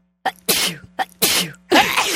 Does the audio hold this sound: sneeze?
yes